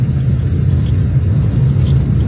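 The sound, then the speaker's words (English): A car drives off slowly through heavy fog, its noisy engine giving a low, steady rumble that stays constant in loudness throughout. “So I'm just going to drive off slow.”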